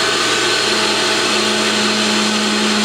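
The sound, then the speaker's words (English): Blender running at higher speed, frothing a blend: a loud, steady whirring motor hum that holds throughout with no voices. “It's very quiet actually, blending it up perfectly, you can see it, higher speed,”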